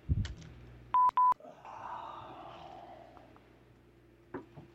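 Two short telephone keypad dialing tones in quick succession while dialing back into a phone call, clear and fairly loud over a quiet hiss, followed by faint background noise.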